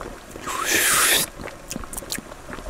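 Soup is tasted from a bone spoon with a loud, breathy slurp lasting under a second, followed by faint clicks and small mouth smacks.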